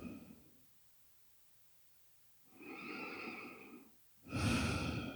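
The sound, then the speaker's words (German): Deep, slow breathing in and out, soft and airy: a fading breath at the start, a quiet pause, then two long, calm breaths, the second louder. “Nochmal tief ein- und ausatmen, in diesem Moment dich entspannen.”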